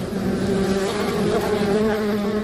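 Bees buzz continuously in a hive, a dense, steady drone that stays loud and unbroken throughout, with no voices.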